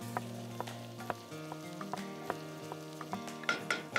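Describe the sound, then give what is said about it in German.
Onions frying in a pan give a steady sizzle with scattered crackles and pops; no one talks. “Schau mal, ich jetzt unsere Zwiebel rüber, nicht, dass da was anbrennt.”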